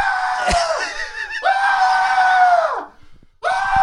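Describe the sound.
A person's voice imitates a toddler screaming in panic on a plane flight, with loud, strained, high-pitched shrieks that are drawn out and broken by brief pauses. The longer cries sag downward in pitch as they end.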